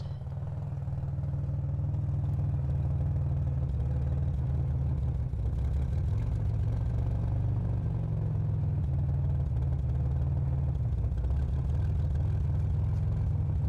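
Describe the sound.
Steady low rumble and vibration of a car ride, heard from inside the closed trunk, a continuous droning hum with no pauses for the whole stretch.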